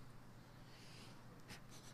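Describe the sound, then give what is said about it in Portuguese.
Faint scratching of handwriting makes a soft, steady hiss, with a few short, slightly louder strokes near the end. “Se ajoelha e começa a escrever.”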